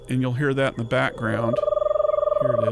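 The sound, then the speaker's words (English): Eastern Screech Owl monotone trill from a recording: a rapid, evenly pulsed trill held at one steady pitch. It follows a person talking and continues under the voice as the talking resumes near the end. “fired up our Eastern Screech Owl recording here”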